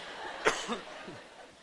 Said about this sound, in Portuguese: Pigarrei.